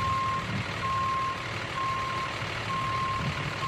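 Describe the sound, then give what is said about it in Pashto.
Reversing beeps from a truck practicing parking on a street in the Bronx, New York: several long, steady high-pitched beeps with short gaps between them sound over a continuous low engine rumble. “د نیویارک په برانکس کې په یوې کوڅې کې تمرین کوي چې څنګه د ټریکټر، ټریلر یا ټرک پارک کړي”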